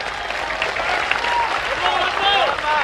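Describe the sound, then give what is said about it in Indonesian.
Audience applause at an Indonesian religious talk: dense, steady clapping fills the whole clip, with voices audible through it. “Jangan tepuk tangan dulu. Cepat aja tepuk tangan.”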